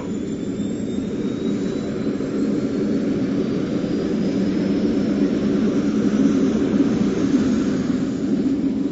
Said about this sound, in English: Ignition. Adjust the throttle. And away we go.